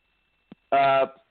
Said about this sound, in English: sorry, hold on 1 second. I apologize. Someone started calling my phone.